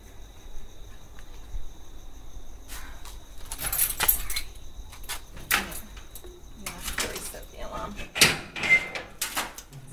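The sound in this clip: Store doors and a roller shutter being unlocked and reopened: many sharp metallic clicks, clunks and rattles, like keys jangling, spread in an uneven rhythm over a low, steady background hum.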